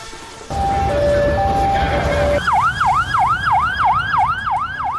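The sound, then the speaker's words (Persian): Ambulance siren sounds amid a crowd gathered after the killing of a Hamas leader. A loud two-tone alternating wail gives way to rapid, repeating swooping cycles over a steady background roar. “این صدای امبولانس و تجمع مردم به خاطر کشته شدن یکی از رهبران حماس بود.”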